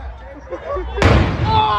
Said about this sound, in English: This almost looked like a deliberate act of this police officer who was appeared to have been badly hurt by a firework on Brady Street.